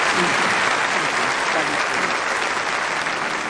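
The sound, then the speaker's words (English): Warm applause from an audience at a church service, dense steady clapping that stays loud and even throughout without fading, with no clear speech on top. “Give her another warm Acoustic Cathedral applause.”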